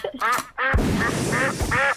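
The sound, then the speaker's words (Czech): A duck quacks five times in loud nasal calls over a steady, noisy background. “samozřejmě je to kachna, správně”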